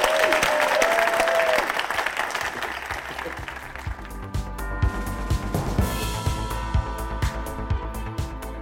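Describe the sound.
Audience applause for a guest: loud, steady clapping from a crowd that continues for several seconds and eases slightly toward the end.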